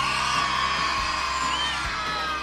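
A crowd screams and whoops in a loud, continuous wall of high-pitched yelling that holds steady for the whole clip without a break.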